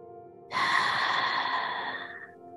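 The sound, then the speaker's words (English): A single long, deep breath taken during a guided mindfulness exercise. The soft, airy rush swells quickly and then fades slowly over about two seconds, heard alone with no talk. “Together, let's take one deep breath in through the nose and out through the mouth.”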